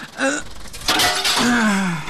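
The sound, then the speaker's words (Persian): Glass is smashed to wake a sleeping person: one harsh, bright crash bursts out amid voices, with a tonal vocal sound just before it and a sustained, falling vocal sound just after. “تو باش که من امی شیشه را میده کنم اگه بیدار شوه.”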